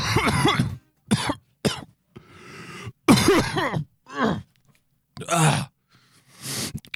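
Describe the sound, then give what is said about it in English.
Repeated coughing and throat clearing as someone hacks up phlegm. A series of rough, throaty bursts of varying length are separated by short pauses, with no talk. “We've been here once in 6 weeks and a bit of phlegm to welcome the audience.”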